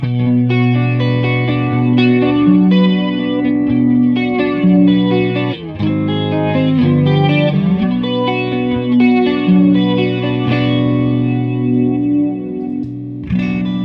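Electric guitar through a TC Electronic limited-edition chorus flanger pedal, set with intensity and width near two-thirds and speed near one-third. Sustained ringing chords swirl with shimmering modulation, played alone at steady loudness with one brief dip midway.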